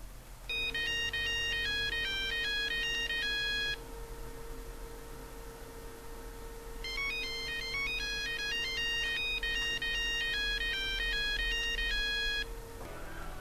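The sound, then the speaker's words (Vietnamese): Electronic melodic ringtone of a mobile phone ringing at night, heard as two faint bursts of quick stepping notes separated by a pause, with a steady low hum underneath and no voices. “Tối hôm đó đang đêm, máy điện thoại di động của mình đổ chuông.”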